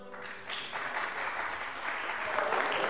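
An audience applauds at a live country music show with dense, steady clapping that grows slightly louder toward the end.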